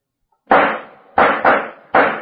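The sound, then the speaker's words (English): Gunshots are fired at people in a drama scene at an old mansion at night. Four loud, sharp cracks come at uneven intervals, each ending in a short decaying tail, with no voices. “whoever fired at us is getting away”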